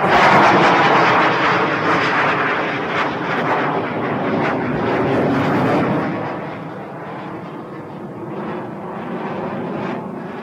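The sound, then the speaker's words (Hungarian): A Gripen fighter jet roars through a sharp right turn in foggy weather at the Kecskemét military airfield. The engine noise is loud, broad and continuous, easing slightly in the second half. “Egy éles jobbforduló a ködös időben, és Kecskeméten a katonai repülőtéren bemutatkozott a Gripen.”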